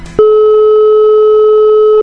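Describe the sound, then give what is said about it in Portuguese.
A steady telephone line tone sounds while a call is being placed. It is a single loud, unbroken pitched tone that starts after a brief noisy click and holds to the end. “É o Escola Show aqui, ligando agora pra Célia”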